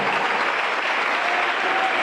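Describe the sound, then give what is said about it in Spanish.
Loud applause from a church audience, a thick, continuous roar of many people clapping at full strength, holding steady without pause across the whole stretch. “Vamos, aplauda lo grande que se oiga.”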